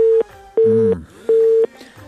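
A telephone busy tone pulses after a call is cut off. Three loud beeps of the same steady pitch are broken by short gaps with faint noise between them.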